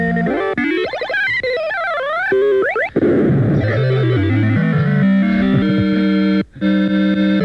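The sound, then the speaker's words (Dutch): A radio jingle marks a sensational new-record item on a Dutch LP programme: distorted synthesized tones with rising sweeps and echoing effects, then settling into sustained stepped chords. “Elke keer als je dit geluidje hoort...”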